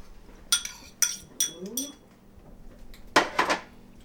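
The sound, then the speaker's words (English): Bright clinks of a utensil striking a bowl as eggs are whipped, a few sharp taps in two short groups separated by a pause, with a brief voice heard between them. “and now I'm whipping up the eggs. I haven't put in the flour yet to soak up that extra juice, but I'm going to do that in a minute. Here go the eggs.”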